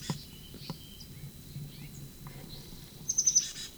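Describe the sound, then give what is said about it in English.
A bird peeps in a sycamore tree. Faint, high chirps come early, then a quick run of several sharper, high peeps near the end, over a low, steady background hum. “Sycamore bird.”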